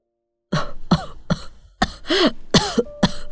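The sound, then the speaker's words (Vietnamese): Harsh, hard coughing from an old woman in a kitchen: a run of loud, throaty hacking bursts in quick, uneven succession, with no talk over them. “Trong bếp, bà cụ Thẹo đang ho sù sụ.”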